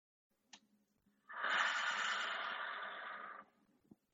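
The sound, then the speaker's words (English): A single long, steady breath of about two seconds during a slow, deep breathing exercise, soft and airy, heard alone with no talk. “So breathe in, breathe out.”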